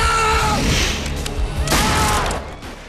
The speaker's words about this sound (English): And pulls the trigger, spraying the padre's brains all over the ceiling.